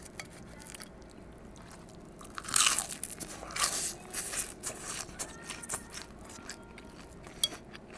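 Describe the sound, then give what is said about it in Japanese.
Crisp biting and chewing of conger eel: a few loud crunches, then many softer, irregular chewing sounds and small crackles, with no talk. “よし、ちょっとじゃあもう穴子食いついちゃうよ俺。”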